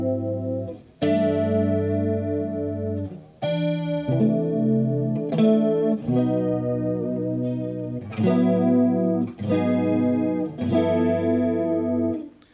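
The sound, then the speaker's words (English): Electric guitar through a 70s-style analog chorus effect, with chords ringing out every second or two in a lush, wavering, shimmering tone, slightly gritty, with no voices. “like the kind of 70s analog chorus sound that they have. It's pretty chorusy.”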